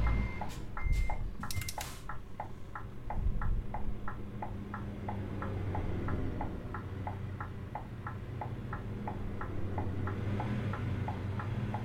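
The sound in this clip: A truck's reversing alarm sounds a long, even series of short, high beeps at a quick regular pace over a low engine rumble, with a few sharp clicks near the start.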